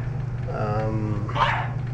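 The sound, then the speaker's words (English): A small, excitable female dog gives a short whining yelp followed by a sharper bark, both brief and over a steady low hum. “She barked the whole first week, and then that turned into a few months, and she's still barking.”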